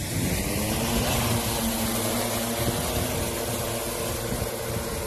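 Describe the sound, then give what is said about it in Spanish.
A remotely piloted aircraft supporting night firefighting at a wildfire in Sierra Bermeja, Málaga, gives off a continuous droning engine hum with a steady tonal whine, holding an even level throughout with no talk. “Es el sonido de una aeronave pilotada por control remoto que durante esta noche ha dado apoyo a los trabajos de extinción.”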